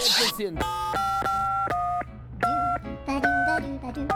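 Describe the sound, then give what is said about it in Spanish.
Telephone tones sound while calling a United States number, a series of steady electronic beeps in short bursts separated by brief gaps, over a low continuous hum. “A ver, vamos a ver si da el tono.”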